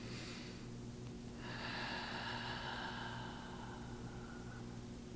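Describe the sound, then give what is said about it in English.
A long, drawn-out breath exhale during a guided breathing meditation, a soft, airy rush that swells after a moment and is sustained for several seconds over a steady low hum. “as you inhale as deep as you can and hold it, have your exhale be more intentional and longer and dragged out”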